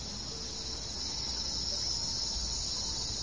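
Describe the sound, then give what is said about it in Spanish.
Crickets chirping at night, a steady, high-pitched, continuous trill that holds evenly at a low level throughout, with no voices. “Solo el ruido de las palomas negras y de los grillos interrumpe su profundo pensamiento.”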